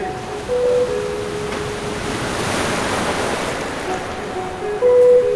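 Waves rolling onto a deserted surf beach: a continuous broad wash of surf that swells in the middle and surges again near the end, with no voices.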